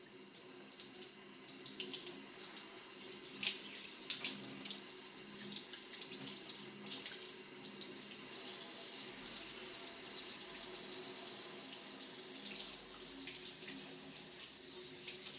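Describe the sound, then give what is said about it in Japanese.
Running water wets a person's hair before shampooing, a steady hissing splash that continues evenly throughout with a few brief spatters and no voices. “それでは頭濡らしていきますね。”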